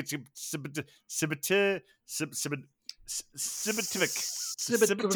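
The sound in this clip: Beer poured into a glass, a soft continuous hissing and fizzing that runs under steady talk for a few seconds.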